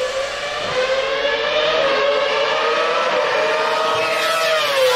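A Formula One race car engine screams at high pitch, loud and sustained, holding a near-steady tone that dips slightly toward the end.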